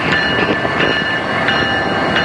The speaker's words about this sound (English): So the train has lights on, even though it's during the day, and I don't think that's very necessary because we're standing in the hot sun, but it's like yellow and it has the Amtrak symbol on it, and it's not moving for some reason.